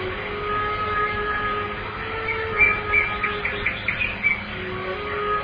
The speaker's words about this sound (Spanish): los pájaros que oyes cantando